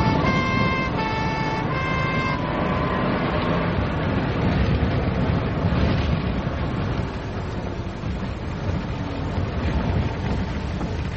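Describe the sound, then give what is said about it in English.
A police car siren switched on during a pursuit sounds as a two-tone wail alternating between high and low pitches for a few seconds. It then sinks into a loud, steady roar of engine and road noise. “Right, put the siren on.”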